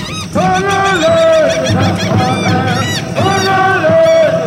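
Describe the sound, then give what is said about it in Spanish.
Bird calls in the Chaco: loud, repeated honking cries with bending, harmonic pitch that rise and fall in recurring phrases, sustained almost without a break. “paseando por el Chaco, su cuna, cuando de pronto un ave pasó y en un canto lejano les pareció oír su nombre.”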